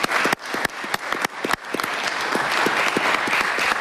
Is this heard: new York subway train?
no